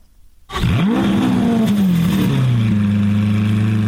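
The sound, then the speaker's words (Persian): Car engines rev at the Geneva motor show in Switzerland: a loud engine bursts in after a moment of silence, its pitch climbing sharply, then settles into a sustained, steady roaring drone. “این صدای اتومبیل‌های حاضر در نمایشگاه خودروی ژنو است.”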